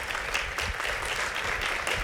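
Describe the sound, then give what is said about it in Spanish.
Audience applause during a live stage show, fairly quiet but continuous clapping from many hands, even in loudness throughout. “Nos aplauden por decir sebo.”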